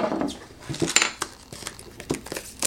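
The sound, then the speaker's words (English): Crinkling and clicking of a plastic chamber squeezed from all sides, a few irregular crackles and light taps at fairly low volume. “Remove the lid and then squeeze the chamber from all sides.”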